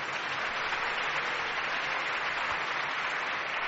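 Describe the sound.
Steady applause from an audience gathered at the Cúpula del Milenio in Valladolid. The clapping is a dense, even wash that stays at one level throughout, with no clear voices.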